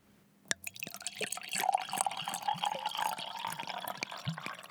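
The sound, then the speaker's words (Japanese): Liquid glugging out of a bottle as it is poured, a faint, rhythmic tok-tok gurgle of many quick pulses over a gentle wet trickle. “この液体を注ぐ音、何を注いでいる音だと思いますか？なんとも気持ちのいいトクトクトクという音。なんとなく日本酒を注ぐ音のように感じたのではないでしょうか。”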